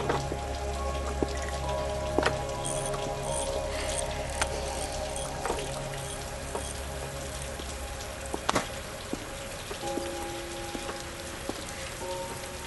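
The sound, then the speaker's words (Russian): Rain falls steadily, a continuous hiss dotted with many scattered sharp drop taps and splashes throughout. “Дождь какой-то горячий.”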